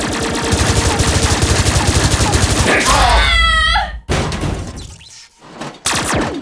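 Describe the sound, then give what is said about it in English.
Cartoon gunfire: a fast, loud machine-gun burst rattles for about three seconds, then gives way to other effects and abrupt cuts. “She was shooting me!”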